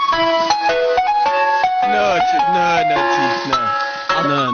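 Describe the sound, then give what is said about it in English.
Ice cream truck jingle: a bright, tinkly electronic melody of short, clear notes that plays on steadily, with a voice sounding over parts of it. “Here comes ice cream man. An ice cream truck could work.”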